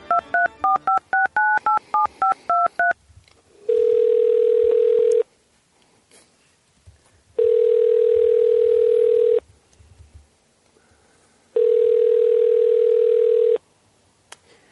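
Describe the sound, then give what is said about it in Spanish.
Phone call being placed: a quick burst of touch-tone keypresses, then three long, steady ringback tones separated by pauses. “Así le marcó Marcelo al peje para avisarle, pues, que ya le habían quitado la visa a Andy.”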